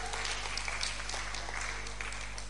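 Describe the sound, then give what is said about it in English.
An audience claps for a guitar player, a dense, steady wash of applause that holds at an even level throughout with no voices on top. “But clap for him.”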